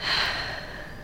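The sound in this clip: A patient in breath-hold practice takes a single quick, sharp inhale. It starts fairly loud and tapers off within about a second, with no talking.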